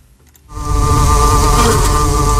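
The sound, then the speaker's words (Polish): Honeybees buzzing inside a beehive, heard over a live audio stream: after a brief quiet start, a loud, dense and continuous hum sets in and holds a steady droning pitch. “Ale można też posłuchać tego, co się dzieje w środku ula.”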